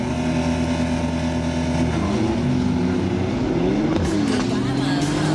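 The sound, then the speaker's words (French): A Porsche sports car accelerates hard from a standing start with launch control, giving a loud, continuous engine roar whose pitch shifts up and down. “Je suis parti très très fort ouais, sur ce coup-là parce que je vois avec le launch control chez Porsche, c'est quand même pas mal.”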